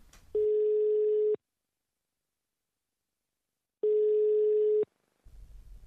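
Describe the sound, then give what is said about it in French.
Ringback tone of an outgoing telephone call to a bar: two steady one-second beeps at one mid pitch, separated by a long silence, then faint low noise. “On a fixé un rendez-vous, et donc je vais l'appeler dans son bar.”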